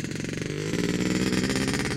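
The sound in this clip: A motocross motorcycle rides off-road across heathland. Its loud, buzzing engine drone steps up in pitch partway through as it revs, with no talk.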